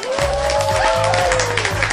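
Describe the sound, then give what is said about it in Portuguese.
Applause in small claps for quiz participants: continuous, loud clapping with a tune playing underneath for about two seconds. “E também parabéns, palminhas pra você que não sabia.”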